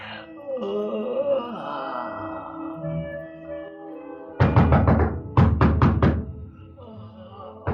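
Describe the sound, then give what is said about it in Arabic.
Knocking on a door wakes a sleeper. A drawn-out groaning voice comes first, then loud knocks follow in two bursts, a first cluster and then a few sharp raps in steady rhythm. “الله يهديك يا اللي قلقت نومي. مين اللي بيخبط؟ افتح الباب”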